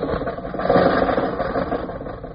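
An old car's engine runs as the car drives off, a car with a cough drop in its gas tank and a fender that falls off. The engine gives a steady, rattling mid-pitched rumble throughout, with no talk.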